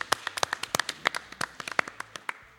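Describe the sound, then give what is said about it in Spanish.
Applause for a host from a small group, light scattered claps tapping out irregularly for a couple of seconds, fairly faint, without voices. “Un aplauso para Alejo, que está organizando todo esto.”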